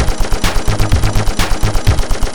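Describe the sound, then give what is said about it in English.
Machine gun fire rattles out as one continuous burst of many rapid, evenly spaced, loud shots, with no voices. “God's rifle. Arrow 6. Laser. Machine gun.”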